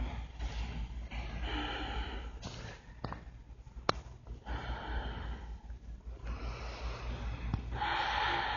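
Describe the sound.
Deep breathing during a yoga inversion: slow, airy inhales and exhales over a few long cycles, faint and breathy with snort-like nasal edges.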